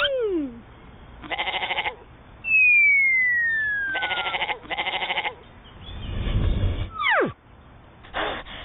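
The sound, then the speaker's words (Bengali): A horned goat that can butt, caught after a goat fight, bleats several times in short wavering, pulsing cries, mixed with electronic sweeping chirp tones and a whooshing sound effect. “ছাগলটি ধরুন। আরে এই ছাগলটি শিং মারতে পারে।”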